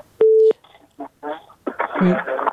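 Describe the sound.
A single steady telephone tone sounds as a caller's line connects on a radio call-in show, lasting a fraction of a second before voices begin talking.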